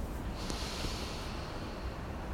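A long, deep breath drawn in during a guided breathing exercise, a steady airy hiss that holds at an even level for the whole clip, with no talking.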